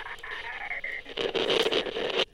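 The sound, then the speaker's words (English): Radio static erupts in a loud, crackling burst lasting about a second and then cuts off abruptly, after a quieter hissing stretch with a steady tone. “Another burst of static shut the argument up.”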